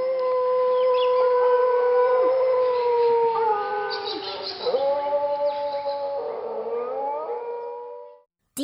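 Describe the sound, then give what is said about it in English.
Dingo howling: several long, overlapping howls with wavering, sliding pitch sustained almost without a break for about eight seconds, then stopping. “Here's what a dingo sounds like.”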